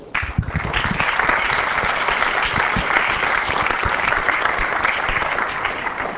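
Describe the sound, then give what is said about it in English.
Sustained applause from an audience at the end of a session: dense, steady clapping that holds at a strong, even level for about six seconds. “And I think we will, at the end of the session, maybe we'll once again give her a round of applause.”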